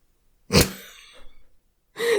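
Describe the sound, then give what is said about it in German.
Quick human breaths: a sharp, loud gasping intake, then softer breathy puffs, and after a short gap another strong breath. “jetzt hast du gerade dreimal schnell hintereinander geatmet zur Strafe, ne?”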